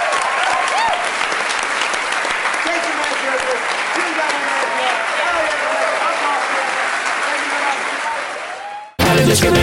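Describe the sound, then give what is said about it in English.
A live show audience gives loud, dense applause that continues evenly for about nine seconds, with a voice heard over it, then stops abruptly. “thank you guys so much for coming. You were a great audience. Give yourselves a hand.”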